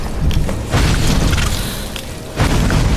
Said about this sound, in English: That initial burst of fire does the most damage.